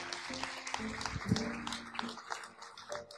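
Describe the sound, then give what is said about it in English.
Scattered applause and clapping rise from a church audience giving a person a hand after a prayer, fairly faint and uneven, mixed with a few voices. “Yeah, give him a hand.”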